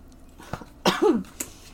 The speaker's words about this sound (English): Oh, I've swallowed some chunky air. Got a frog in my throat.